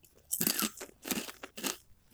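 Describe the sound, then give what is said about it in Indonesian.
Crunching of gendar rice crackers being chewed: three quiet, crisp bursts of crackling bites, each lasting a fraction of a second, separated by short pauses. “ini yang kita makan nih kerupuk gendar aku biasanya nggak suka loh padahal kerupuk gendar tuh tapi yang ini menurut aku enak”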